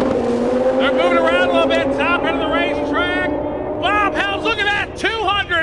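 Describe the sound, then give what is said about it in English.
Drag racing cars launching down the strip, a loud, sustained engine roar with a broad low rumble and wavering high whines, with a voice talking over it. “We are green! Drag racing.”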